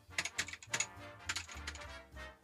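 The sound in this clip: Faint typing on a computer keyboard: a few soft, scattered key clicks with uneven gaps, over a low steady hum.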